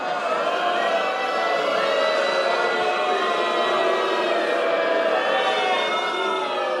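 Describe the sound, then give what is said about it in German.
A late-night talk show studio audience booing, a loud, sustained droning crowd sound of many voices lasting the whole time. “Die Zuschauer haben da wirklich mit Buhrufen reagiert”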